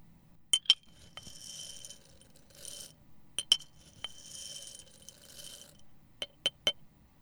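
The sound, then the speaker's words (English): Copper tablespoon with a white marble-like handle stirring lentils in a glass mason jar: a few sharp glassy clinks in small clusters, separated by two longer stretches of gritty rattling and scraping as the dry lentils shift. “that's the sound of a mason jar with a beautiful intentional spoon. It's a copper spoon.”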